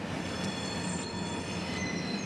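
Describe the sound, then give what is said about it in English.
Freight train cars clash and grind on a long-established railway beside a nature sanctuary: a steady, loud rolling rumble runs throughout, laced with high, sustained metallic squeals and a few brief clanks. “Nearby freight train cars clash.”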